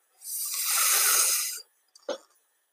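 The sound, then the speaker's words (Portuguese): A voice imitates a gentle wind with one long, soft, breathy whoosh lasting over a second, followed by a brief faint breath. “O vento olhou para elas e resolveu soprar, primeiro de mansinho assim.”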